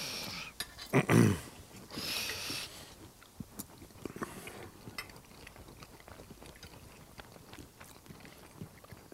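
Chewing and biting while tasting pâté at a picnic: a couple of louder crunchy bites early on, then faint, scattered mouth clicks and soft chewing sounds at a low level, without talk.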